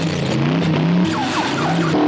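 Tires squeal and an engine revs hard as a car, buried after crashing into a snowbank on a snowy road, tries to reverse out. The loud, continuous straining drone carries rising, whining sweeps.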